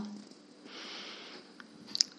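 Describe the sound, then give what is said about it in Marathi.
A deep breath drawn in before chanting a Shiva mantra: a soft, airy inhale lasting under a second, followed by a few faint clicks. “श्वास घेऊन मंत्र म्हणायचा आहे डोळे अलगद meta मोठा श्वास घ्या”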